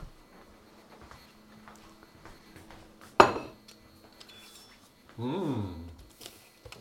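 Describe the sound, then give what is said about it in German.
A plate is picked up: a single sharp clink of dishware stands out, followed a couple of seconds later by a longer scraping rattle, set against an otherwise quiet, faint background. “Ich nehme aber den Teller her.”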